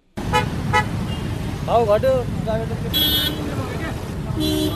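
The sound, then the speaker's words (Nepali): Street traffic from cars and motorcycles queuing at a petrol pump in Lalitpur, a constant engine rumble with a couple of short horn toots cutting through near the end. “ललितपुरको साझा petrol pump अघि तेल भर्न आएका motorcycle र गाडीको लामो line छ।”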